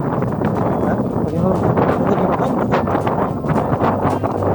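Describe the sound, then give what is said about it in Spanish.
Strong wind roars and buffets the microphone in a loud, continuous rush, with gusty swells and rumbling low noise throughout. It was recorded where a tree had fallen across a rural road. “Bueno, el audio evidencia el fuerte viento que hay hasta ahora.”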